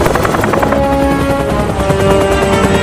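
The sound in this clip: A helicopter hovers low over large animals in a gorge, its rotor beating in a steady, rapid chop over a loud droning engine whine that holds constant throughout.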